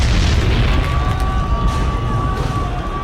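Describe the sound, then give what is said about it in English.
A bomb explosion rolls out as a loud, sustained, low rumbling roar of broad noise with no sharp onset. A thin steady tone runs faintly above it for the whole stretch. “I guess I should let the bomb off like I was instructed to.”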